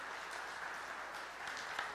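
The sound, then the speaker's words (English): An audience applauds children who have just taken part in a storytelling session, with steady, dense clapping throughout. “Can we give our kids a big round of applause?”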